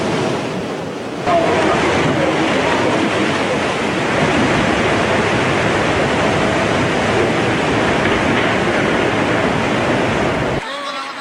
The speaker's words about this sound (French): Dans un vacarme assourdissant, la vague géante déferle alors que certains automobilistes sont encore au volant de leur véhicule.